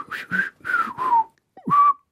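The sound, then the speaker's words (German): Whistling by a single person: four clear melodic notes in short bursts separated by pauses, the middle notes sliding slightly downward in pitch, alone without talk. “Ciao sagen, oder sollen wir nochmal pfeifen?”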